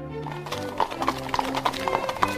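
Clip-clop of horse hooves as a horse-drawn carriage arrives at a household, a quick, steady patter of hoof beats over sustained tonal sounds.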